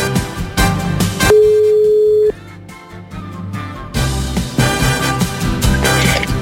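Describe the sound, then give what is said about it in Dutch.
A telephone call being dialled and ringing: a single steady line tone of about a second sounds over background music. “Dit is het nummer. Ik ga eens even bellen.”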